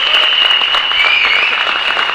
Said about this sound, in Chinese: 给我们大哥一个掌声，我们大哥一个掌声。